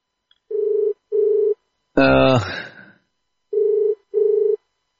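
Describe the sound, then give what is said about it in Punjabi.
Ringback tone while placing a telephone call: two pairs of short, low, steady beeps separated by silence, with a brief voice cutting in between the pairs. “ਤੇ ਕਾਲ ਉਹਨਾਂ ਨੂੰ ਦੁਬਾਰਾ ਲੱਗ ਗਈ ਆ।”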